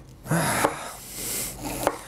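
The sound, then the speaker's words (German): A knife cuts pointed and white cabbage for coleslaw: two long, rasping slicing strokes, each ending in a sharp tap. “Das Gemüse schneiden ist halt so, ne? Steaks lassen sich irgendwie leichter schneiden als Gemüse.”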